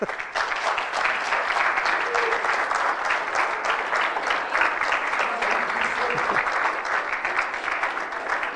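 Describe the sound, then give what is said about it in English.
An audience gives steady, dense applause after children receive their Bibles at a church service. The clapping stays loud and even from start to finish, with no voices rising above it. “Let's give these guys a hand.”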